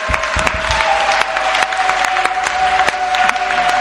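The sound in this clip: A church audience claps during a worship service, with dense, steady applause and sharp individual claps throughout. A sustained held tone runs underneath.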